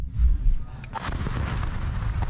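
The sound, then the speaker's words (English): Gunfire during an armed raid on a military post after fighters breach a tall cement security barrier. Heavy, low booming blasts come first, followed by a dense, loud stretch of rapid cracking shots. “you're going to see them invading a military post and shooting as many people as possible,”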